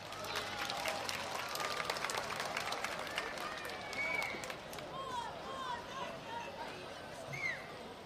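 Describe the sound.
Applause and cheering from a concert audience in Zenica, greeting a singer and his orchestra: a dense, loud, continuous wash of clapping that holds steady for the whole stretch.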